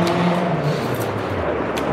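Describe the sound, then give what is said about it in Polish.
Cars pass along a city street in Budapest, a continuous low traffic rumble and tyre hiss that holds steady at a moderate level with no single vehicle standing out. “Czy to był też samochód, czy już motor jakiś, motocykl? Nie, to są samochody.”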